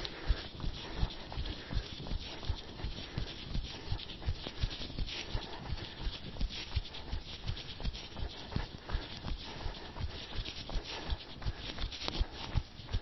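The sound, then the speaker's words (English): Jogging footsteps in a forest thud in a quick, regular rhythm during a running speed session, with soft impacts repeating evenly from start to finish. “And relax. And jog.”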